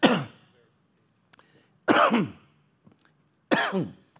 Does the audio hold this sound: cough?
yes